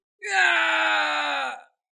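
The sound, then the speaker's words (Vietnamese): A man's loud, strained shout, a monstrous figure bellowing as a new arm grows from his shoulder. The cry is sustained and steady for about a second and a half, heard alone with no other sound. “Kim Xích Tiêu hét to, vai trái co rút sinh ra một cái cánh tay mới”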